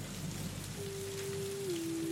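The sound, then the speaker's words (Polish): Steady rain falling, a continuous dense hiss of drops that stays even throughout, with a faint steady low tone entering partway through and holding to the end. “Deszcz.”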